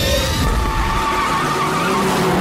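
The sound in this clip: Hard launch of a car with tyres squealing: a loud, continuous screech layered over engine roar, sustained for the whole stretch without a break.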